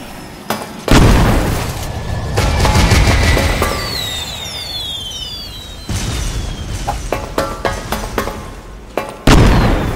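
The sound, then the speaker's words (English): Bombs explode and hit a character in a video game: several heavy booms burst out amid rapid, sharp crackling and gunfire-like pops, with a few whistling tones in between. “Jetzt hat die Bombe ihn wieder getroffen.”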